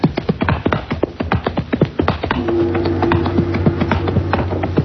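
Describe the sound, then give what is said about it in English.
Large gates open while a horse's hooves clip-clop, quick and uneven, throughout. About halfway through, a steady mechanical rumble with a droning hum joins the hoofbeats and continues to the end. “We got the gates open for us. Let's ride in.”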